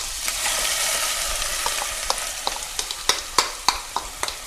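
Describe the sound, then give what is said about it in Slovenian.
Onion frying in fairly hot oil: a steady, bright sizzle runs throughout, with sharp crackling pops that become more frequent and louder in the second half. “Ja, tako, olje je že dokaj vroče, sedaj bom ocvrl čebulo.”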